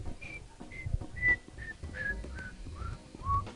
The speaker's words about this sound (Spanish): Siento un pájaro silbar con gran ritmo.